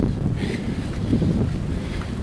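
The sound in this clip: Wind blowing outdoors, a continuous low rumbling roar with gusty buffeting against the microphone, steady in loudness and without voices.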